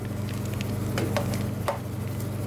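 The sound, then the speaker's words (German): An ice cream machine releasing freshly made ice cream, with a steady whirring churn and a few louder scraping strokes over a constant mechanical hum. “Schon nach etwa 10 Minuten hat die Maschine ihren Job erledigt. So, und jetzt kommt das Eis raus.”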